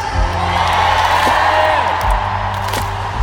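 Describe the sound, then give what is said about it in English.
A concert crowd at a 2019 pop show in Moscow whoops, cheers and shouts loudly and continuously over sustained, droning music tones. “I want to hear you sing this chorus as loud as you can. Say yeah!”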